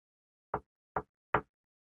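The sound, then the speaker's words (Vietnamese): Three light knocks by hand on a door, evenly spaced and short. Each is a soft, dull rap with no other sound around it. “đưa tay gõ nhẹ mấy cái lên trên cửa.”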